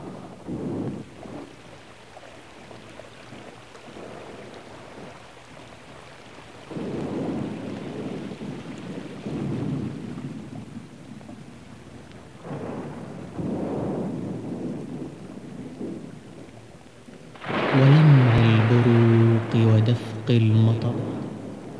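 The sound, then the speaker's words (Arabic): Thunderstorm with heavy rain: deep rolling thunder swells in several waves over a steady wash of rain, and a voice with clear tonal lines enters near the end. “مع الله عند هزيم الرعود ولمع البروق ودفق المطر،”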